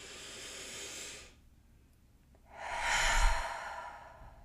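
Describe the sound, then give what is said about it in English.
A slow, deep, conscious breath: a long airy inhale, a pause of about a second, then a fuller, louder exhale that fades out. It is quiet and heard alone. “let's just stop and take one of our nice slow, conscious, deep breaths.”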